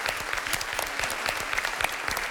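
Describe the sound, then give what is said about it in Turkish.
Audience applause on a quiz show: loud, continuous clapping with sharp individual claps standing out from the steady patter throughout. “Alkışlıyorum sizi.”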